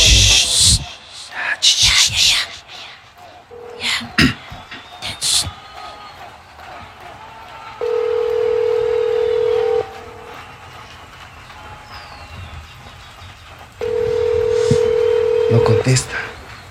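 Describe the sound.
An outgoing phone call is dialed with a quick burst of keypad tones, then two long, steady ringback tones sound with a gap between them and nobody answers. Some low background noise runs throughout.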